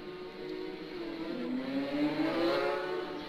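Racing motorcycles pulling away from the start of a race, a moderately quiet engine whine growing louder as the bikes accelerate over a steady buzzing drone.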